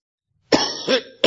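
A person coughing, a few harsh, rough bursts in quick succession with no talking around them.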